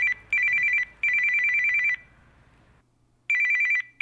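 A telephone rings as an outgoing call is placed: bright, trilling electronic ring bursts repeat, with a longer silent pause before the final burst.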